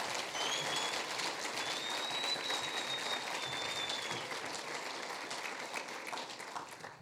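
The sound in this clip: Audience applause welcoming a speaker onto the stage: dense, steady clapping that holds strong for several seconds, then gradually thins and fades toward the end.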